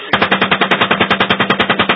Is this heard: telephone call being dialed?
no